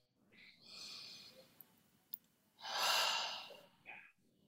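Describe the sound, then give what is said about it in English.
Slow, audible breathing in two long, airy breaths, the second louder and fuller. Small clicks fall between them and a brief soft puff comes near the end. It is quiet and heard alone, without talk. “I breathe for you. I breathe for us.”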